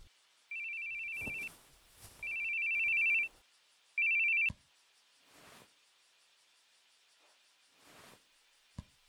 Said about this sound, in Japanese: 電話本社からっすよね。